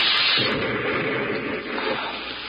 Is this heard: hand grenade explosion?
yes